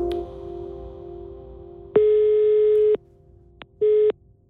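Telephone line tones while calling the Danish tax authority: a steady held tone, then a louder ring about a second long and, after a pause, a second, shorter ring.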